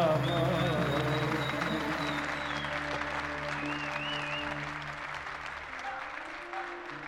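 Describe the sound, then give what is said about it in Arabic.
Audience applause, a dense, steady roar of many clapping hands that slowly softens over about seven seconds. “هلا بتعبوا ايديك، خلي شوي لبعدين يا خي.”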